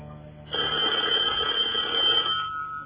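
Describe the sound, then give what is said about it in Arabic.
In a radio drama, a telephone bell rings in one continuous burst lasting about two seconds. The ring is bright and buzzy, rising abruptly out of a quieter background and stopping just as abruptly. “ألو؟ أيوة موجود. التليفون يا صابر.”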